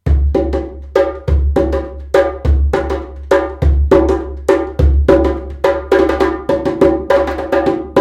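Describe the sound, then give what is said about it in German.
An ensemble of about three djembes, goat-skin goblet drums built to be loud, beats out a fast, steady rhythm of many sharp slaps. Deep booming bass strokes recur at intervals, with no voices. “Eine Djembe ist eine Kelchtrommel, die extra dafür gebaut ist, laut zu sein, weil sie auf dem Dorfplatz gespielt wird.”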